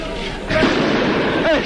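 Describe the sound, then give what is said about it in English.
A police tear gas grenade is fired during clashes with students: a sudden broad, muffled burst cuts in and leaves a rough, noisy rush, with voices in the background. “The police are firing more and more tear gas grenades.”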